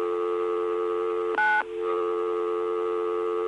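A single touch-tone keypad beep, dialing 9 on a telephone, cuts in briefly over a continuous steady dial tone that runs through the whole clip.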